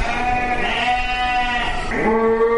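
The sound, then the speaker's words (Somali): Livestock bleat at a slaughter yard in Djibouti, with loud, wavering, nasal sheep- or goat-like cries with rich overtones. A fresh bleat breaks in near the end over a continuous low background. “VOA ayaa soo booqatay xeradaasi dabaaxada xoolaha lagu qalo ee magaalada Djibouti”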